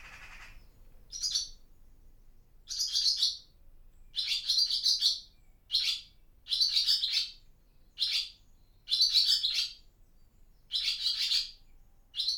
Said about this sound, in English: Ah, parent chatting to chicks.